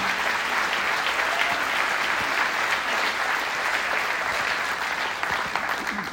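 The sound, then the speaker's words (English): Audience applause at a comedy competition: dense, steady clapping that fills the whole stretch without a break. “round of applause for the producer, John Fox”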